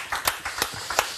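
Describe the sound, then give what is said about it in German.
A few sharp hand claps greet two guests from a Berlin tattoo studio. The claps are sparse and fairly faint, landing as separate smacks in an uneven rhythm. “Applaus für euch.”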